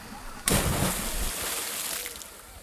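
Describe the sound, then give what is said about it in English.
A person plunges into the water at Wakulla Spring, setting off a sudden splash followed by a sustained, hissing wash of churning water and bubbles that slowly eases off. “Well, to see for myself, I came back to Wakulla Spring. It had been a few decades, and I took the plunge.”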